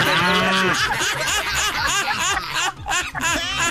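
A cow lying down lets out mooing calls: loud, drawn-out lowing with wavering tones that fill the whole few seconds.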